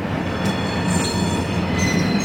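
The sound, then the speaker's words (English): Freight train cars clash and rumble on a nearby railway in a steady, loud, grinding roar, with high metallic wheel squeals running through it. “Nearby freight train cars clash.”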